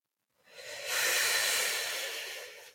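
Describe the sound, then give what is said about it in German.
A deep human exhale on a soft, nearly voiceless "hoo": one long breathy hiss that swells quickly after a brief silence, then slowly tapers off. “Jetzt atme tief ein und atme fast ohne Ton mit dem Laut Hu aus.”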